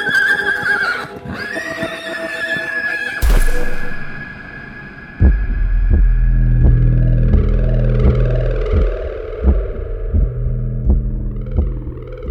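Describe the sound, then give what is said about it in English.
A horse neighs loudly just before bucking its rider into sand, a shrill, wavering whinny lasting about three seconds, followed by deep rumbling and pulsing low thuds that continue to the end. “That's when my horse neighs and bucks me off, and I fall into the sand.”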